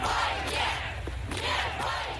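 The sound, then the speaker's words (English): A crowd of protesters chants a slogan in unison at an anti-war street protest against the war in Ukraine. The chanting is loud and swells in rhythmic waves as the many voices repeat the phrase. “Protesters chanting no to war.”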